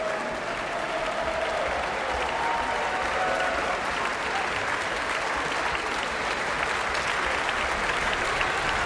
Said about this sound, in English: What a wonderful performance of this monumental work, and the audience is showing its full and unqualified approval.